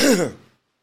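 A single short throat clearing, a rough voiced burst that lasts about half a second and fades out, loud and alone.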